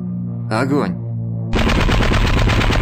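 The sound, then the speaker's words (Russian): An automatic gun fires from a boat at low-flying aircraft. A loud, dense, continuous burst of rapid shots starts abruptly partway through, after a brief earlier sound. “Ударил автомат с лодки Видмана.”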